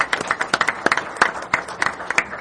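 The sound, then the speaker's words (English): Applause at a public meeting welcomes a new member: a small group claps with sharp, distinct, uneven claps that stay moderately loud throughout. “let's give her a round of applause for joining us.”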